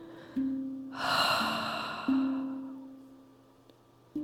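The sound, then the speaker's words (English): A single breathy 'HA' exhale from a yoga session, a loud, rough rush of breath that swells and slowly fades over about a second and a half, heard over soft, sustained musical tones that re-strike a few times. “And exhale, hugging the knees to chest, bringing the forehead to the knees. Exhaling with a nice HA sound.”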